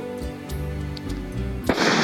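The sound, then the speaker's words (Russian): A single gunshot cracks out sharply over sustained background music and leaves a noisy rumble trailing after it. “Раздался выстрел.”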